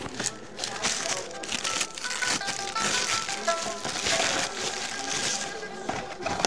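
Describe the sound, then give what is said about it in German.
Crinkling and crumpling of wrapping as a small parcel holding a mobile phone is unwrapped, a continuous scratchy rustle made of many quick crackles that rise and fall in loudness. “Willst du das Päckchen von Mrs. Scott nicht mal langsam auspacken”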